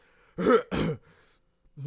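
Throat clearing: two short, harsh, rasping bursts in quick succession, fairly loud against near silence.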